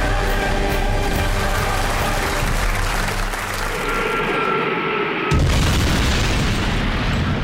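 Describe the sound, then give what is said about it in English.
A commercial airliner plunges to the ground and explodes in a fireball: a loud, sustained roar that thins briefly, then breaks into a heavy, deep blast that keeps rumbling. “That's the sound of a commercial airline plunging to the ground and exploding in a fireball.”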